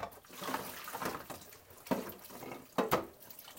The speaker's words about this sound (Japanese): 今朝使ったコーヒーのコーヒーサーバーですねを洗っています